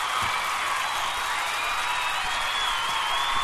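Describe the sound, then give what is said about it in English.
Studio audience cheers and applauds during a Monday Night Football show in Minnesota for a Vikings game, a dense, steady roar of clapping and crowd noise throughout. “there's our audience. You love them Vikings, don't you?”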